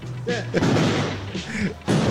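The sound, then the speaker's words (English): Gunfire aimed at a man holding a cup of coffee: a few sharp, loud bangs burst through, mixed with voices. “Are those bullets being fired at him? The guy holding a cup of coffee?”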